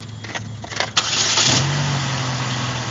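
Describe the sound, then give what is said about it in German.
An old 2008 Saturn SUV with about 160,000 km on it cranks briefly, then its engine catches at about one second and settles into a loud, steady idle. “Ein Saturn, Baujahr 2008 mit knapp 160.000 Kilometern auf dem Tacho. Allein ihn zu starten, ist schon sehr aufregend.”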